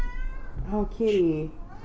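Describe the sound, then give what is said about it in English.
A cat meows a couple of times in quick succession, the second call longer and falling in pitch, fairly loud and close over a low background hum. “Oh kitty.”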